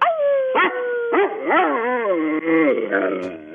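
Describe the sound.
A dog howls on command in long, wavering, sliding tones that rise and fall over several seconds, a smooth low-to-mid croon with a person's voice urging it on between howls.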